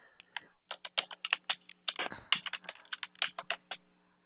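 Rapid typing on a computer keyboard while a customer number is looked up during a phone call: many crisp, uneven keystrokes in quick bursts with a few short pauses, no voices.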